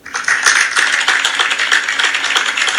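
An audience claps in approval, a loud, dense, continuous patter of many hands that stays at an even level throughout with no voices.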